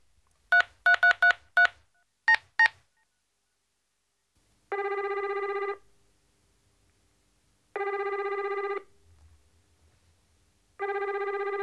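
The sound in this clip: A push-button telephone is dialed with seven short touch-tone beeps, five in a quick run and then two, followed by three long, evenly spaced ringing tones, all clear with no talk.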